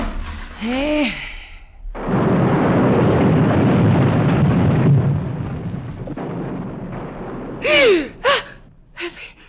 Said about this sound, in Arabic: سامع سامع ايه ده؟ انفجارات. تكونش المتفجرات اتنسفت؟